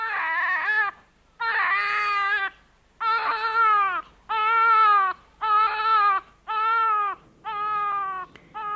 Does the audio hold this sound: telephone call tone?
no